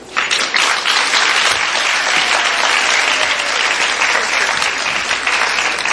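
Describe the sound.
Dense applause from a show audience welcoming a performer, a loud, steady wash of clapping that runs throughout without a break.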